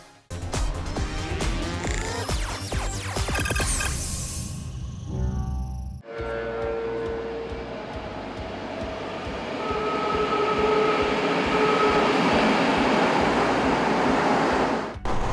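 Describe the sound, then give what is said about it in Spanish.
A metro train rumbles loudly and steadily inside a driver's cab, a cab that recreates the conditions of a train in daily service. About six seconds in the sound turns into the train noise, and a sustained whine joins it partway through. “me encuentro al interior de una cabina de metro. Este lugar recrea las condiciones exactas que se tiene en una cabina de un tren que circula diario por el sistema de transporte colectivo Metro.”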